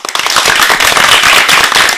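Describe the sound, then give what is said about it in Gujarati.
Applause at a children's performance programme, a loud, dense crackle of many hands clapping that holds steady for about two seconds. “આ તાળીઓના ગડગડાટને વધાવવા માટે તૈયાર છો ને?”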